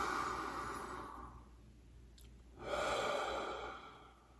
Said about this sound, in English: Let's take another great big deep breath, fill it up.